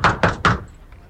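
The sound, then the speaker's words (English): A fist pounding on a door: three heavy, booming knocks in quick, even succession, loud and alone, followed by quiet. “He walks up to a door and pounds on it.”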